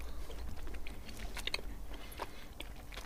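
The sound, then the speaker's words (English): Chewing on a Red Skin lolly, a chewy red confectionery, with moist, sticky bites and squelches repeating steadily throughout. No one talks. “Chew, chew, chew. There's not quite any other lolly that tastes like a Red Skin or a Red Ripper, I should say.”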